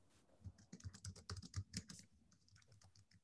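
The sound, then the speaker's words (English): Typing on a computer keyboard in a medical office, a quick, quiet run of many key clicks that tapers off toward the end. “And I know you're kind of looking at me while but this is what I'm typing.”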